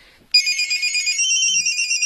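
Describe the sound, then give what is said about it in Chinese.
An incoming call sets off a mobile phone ringtone: a bright, high electronic melody of sustained, warbling tones starts abruptly and plays steadily for about two seconds, with no talk over it. “对不起，接个电话。”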